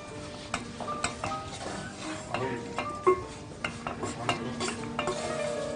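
Stirring a thick almond-studded mixture in a pot with the heat off: many irregular scraping strokes and metallic clinks of the utensil against the pot, steady and moderately loud.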